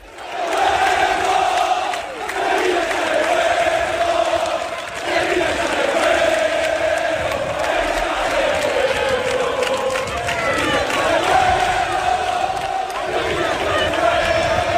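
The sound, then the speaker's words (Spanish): Sevilla football fans chant loudly to welcome their players the day before a league match against Real Sociedad. Massed voices sing continuously with rhythmic surges, cheers and shouts throughout. “La afición es consciente de lo difícil que es la situación y por eso se ha conjurado para animar al equipo. Escuchad.”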